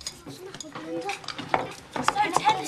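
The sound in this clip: Faint clinks of cutlery against dishes as a family eats a dinner of potatoes and gravy, with a few light taps and scrapes scattered over soft background rustle.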